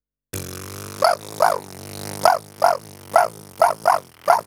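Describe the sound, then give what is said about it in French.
A human voice imitates a prairie dog call with buzzing lips, projecting a 'wa' sound: eight sharp yelping chirps in an uneven rhythm over a continuous low buzzing drone, loud and clear. “Le chien de prairie. Utilisez le son « wa » que vous projetez au travers du bourdonnement de vos lèvres.”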